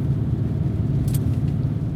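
Steady low engine rumble of a car driving behind another vehicle, an even, continuous drone with no distinct revs or pauses and no talk.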